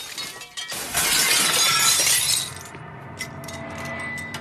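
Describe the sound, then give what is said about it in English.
A mirror punched in a bathroom shatters: a loud, bright crash of breaking glass lasting over a second, then scattered faint clinks and tinkles as shards fall into the basin. “He punches the mirror and shards of glass fall into the basin.”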